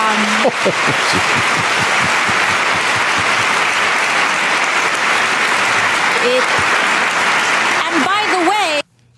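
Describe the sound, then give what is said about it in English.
Studio audience applause, a loud sustained roar of clapping that holds steady for several seconds. Voices break through briefly near the start and again toward the end before the applause cuts off abruptly. “they're all applauding her.”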